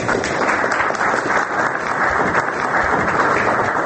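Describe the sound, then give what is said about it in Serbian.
Applause from participants of a political debate on Serbia and Republika Srpska following a 50-minute speech, loud, dense clapping sustained evenly throughout. “aplauz od učesnika rasprave nazvane Republika Srbija i Republika Srpska, stari i novi politički izazovi”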